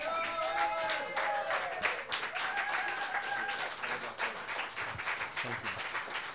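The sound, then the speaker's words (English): Applause from the audience at a Tuesday open mic night in a bar: dense, steady clapping that holds for the whole stretch, with some voices mixed in near the start. “But before we welcome our newcomer, let us give Ellen a hand.”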